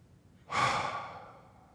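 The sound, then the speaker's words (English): One slow, deep breath is drawn in during a church sermon. It rises suddenly from near silence to a strong, airy rush, then fades gradually over about a second. “Take a deep breath again.”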